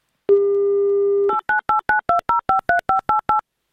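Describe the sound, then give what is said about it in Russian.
Telephone dial tone while a call is placed: a steady tone holds for about a second, then cuts into a rapid, evenly spaced string of short touch-tone dialing beeps at alternating pitches, loud and with no talk. “Вот сейчас мы давайте звонить Нелли и спрашивать все детальнее, конкретнее”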